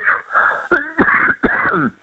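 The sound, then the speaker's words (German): Harsh coughing from a person, with a few sharp bursts broken by wheezy, rasping voiced breaths, loud and close with no other sound around it. “Das ist mein Husten, wie gesagt.”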